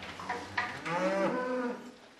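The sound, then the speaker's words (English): A Jersey dairy cow moos at milking time on a small family farm in South Australia's Barossa Valley, a single drawn-out, fairly faint moo with rich harmonics, preceded by a few quieter farm noises. “It's milking time at Karkula, a small 70-hectare family farm in South Australia's Barossa Valley. The well-trained caramel-coloured Jersey cows line up patiently, waiting for the cups to be attached.”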